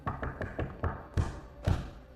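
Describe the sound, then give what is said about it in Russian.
Banging on a toilet door: a quick run of sharp knocks followed by two heavier, louder thumps, with no voices. “Кто-то тарабанит по дверям туалета.”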